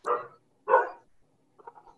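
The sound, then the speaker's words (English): A dog barks twice, two loud, full barks about half a second apart, then a few fainter, softer yips or whimpers follow after a pause. “Except for the dog. I hear a canine question, yes.”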